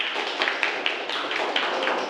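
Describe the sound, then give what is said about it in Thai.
Students clap for a classmate in a classroom, a dense, steady patter of many hands with a few sharper claps standing out and no talking. “ปรบมือให้เพื่อนด้วยครับนักเรียนครับ”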